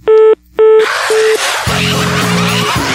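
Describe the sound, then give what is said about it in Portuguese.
Telephone dialing: three short, bright touch-tone beeps, the first two louder and longer, then a steady hiss with a low buzz underneath. “Vou ligar nesta aqui pra delegacia, viu?”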